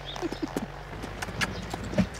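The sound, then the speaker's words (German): A horse walking slowly on a lunge line gives soft, unhurried hoof thuds at a relaxed, uneven pace over a low, steady background hum. “Ich führe Admiral an der Longe. Ganz langsam.”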